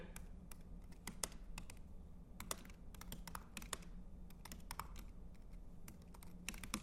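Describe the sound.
Rapid typing on a computer keyboard during a coding session: many quick, irregular key clicks in a steady run with no talk.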